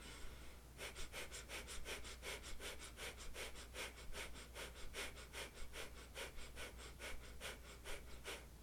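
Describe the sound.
Fast, shallow breathing in and out through the nose during a breathing exercise: many short, even, breathy sniffs in a steady rapid rhythm, continuing without pause and with no talk.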